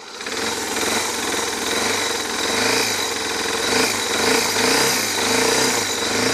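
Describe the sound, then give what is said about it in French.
An older motorcycle engine with a weak battery and carburetion trouble catches near the start, then runs in a loud, rough, rapid chugging idle that stays steady to the end. “c'est une moto qui est un peu plus ancienne. Donc du coup, voilà, il faut un peu plus de temps pour mettre en marche, mais voilà, c'est parti.”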